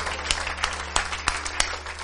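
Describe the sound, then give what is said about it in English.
Hand claps in a church service ring out one by one at a steady, even pace over a constant low hum, fairly quiet, with no voices. “Let's give him a hand clap this morning.”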